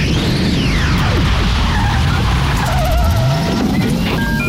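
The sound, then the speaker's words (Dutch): Car tyres squeal and skid loudly, staged as a time machine starting, with engine roar and sweeping whines running unbroken throughout. “Start de tijdmachine, gek! We gaan!”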